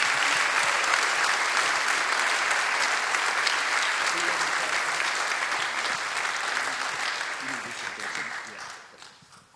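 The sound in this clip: A People's Church audience applauds to welcome the pastor, with sustained, even clapping from a large crowd that carries on steadily and then tapers off near the end.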